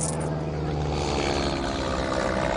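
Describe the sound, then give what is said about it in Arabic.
Airplane engine droning overhead as people flee toward the valley, a dense, steady roar that holds at an even level throughout, with no talking. “طيارة، لك طيارة، احتموا لك اهربوا.”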